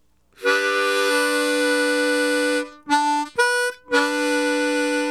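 A harmonica split note, tongue-blocked on hole 2, sounds as a bright, reedy chord held steadily for about two seconds. Three shorter attacks follow, and the last one is sustained to the end.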